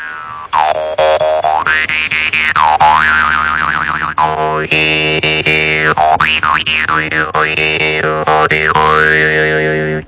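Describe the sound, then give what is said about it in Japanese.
A jaw harp (Japanese kōkin) twangs continuously over a buzzing drone, its overtones sweeping up and down in loud, wah-like vowel shapes with quick rhythmic plucks. “これ何でしたっけ。 これは口琴ですよね、はい、口のこと。”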